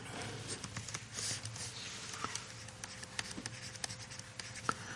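Handwriting with a pen on paper: a steady run of faint, quick scratches and small taps over a low, constant hum.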